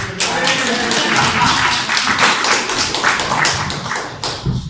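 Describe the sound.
Audience applause at a talk: a dense, even patter of many hands clapping that holds steady and thins slightly near the end.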